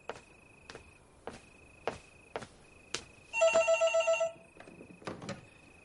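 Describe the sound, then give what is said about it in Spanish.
A telephone bell rings in one rapid, loud trilling burst as a man crosses a room to answer it, set among scattered soft clicks and footstep-like taps. “Él se levanta y se acerca al teléfono.”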